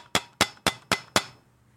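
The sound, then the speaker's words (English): Five sharp metallic bangs on a trash can in a steady, even rhythm. Each hit is bright and clanging, decays quickly, and is heard alone. “That's banging on the trash can.”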